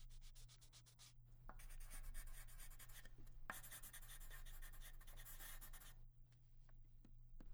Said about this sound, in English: What are you doing? Making notes. Are you writing in Grotta? No, I'm writing in math.